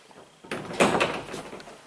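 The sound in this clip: A wardrobe door opens with a faint scraping, rustling burst that starts suddenly, peaks briefly, then fades away over about a second.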